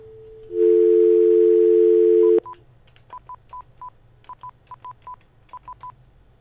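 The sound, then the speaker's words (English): Telephone dialing on a landline: a steady, loud dial tone holds for about two seconds and cuts off, then many short, crisp keypad beeps follow in quick irregular groups at a lower level. “Let me call her and see if she'll help me. Hold on, let me dial her up.”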